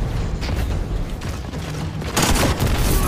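A rocket launcher explosion in a video game: a sudden loud, broad blast arriving about two seconds in over a lower, rumbling background.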